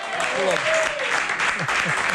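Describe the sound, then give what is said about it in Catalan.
Studio audience applause on a talk show, a steady patter of clapping with a voice speaking over it near the start. “Home, un aplaudiment. Bravo. Molt bé.”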